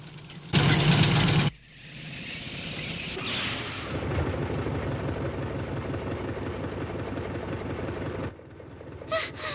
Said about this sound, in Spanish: ¡Vaya, qué maravilla! ¡Es un coche!